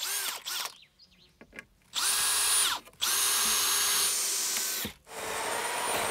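A power saw cuts through wooden planks to open a doorway in a house facade in the Black Forest. Its loud, steady whine runs in long stretches, broken by a few short dips where the blade eases off.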